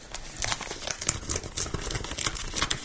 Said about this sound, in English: So, do you want to crack open the envelope?